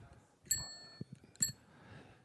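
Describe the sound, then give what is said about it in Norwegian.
The bell from the speaker's first bicycle is rung twice in succession, giving two bright, high metallic dings spaced about a second apart. Both are fairly faint over low background rustle. “Det her ringeklokka til den første sykkelen min.”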